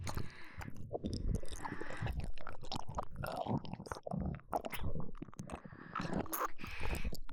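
Chewing of slimy food, with many wet, squelching mouth sounds and small smacks in an uneven rhythm, fairly loud and close, with no talk.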